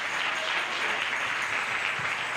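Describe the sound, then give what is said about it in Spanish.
Church audience applauding, a dense and steady wash of many hands clapping that holds evenly for the whole stretch, with no clear voices above it. “Den un aplauso a Cristo, hermanos.”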